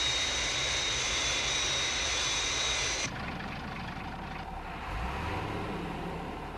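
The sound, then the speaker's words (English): Jet aircraft roar during a final landing approach on the glide path, with a fault reported on its number three engine. The roar is loud and steady; a bright hiss drops away about halfway through, leaving a lower rumble. “Aircraft approaching glide path 5 miles to threshold.”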